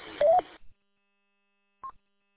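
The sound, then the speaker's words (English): A radio repeater's tone over a handheld transceiver: a short noisy burst carrying a slightly rising tone, then silence and a single brief beep near the end. “That's a different noise on this repeater. It's crazy. Tone is different on the repeater now.”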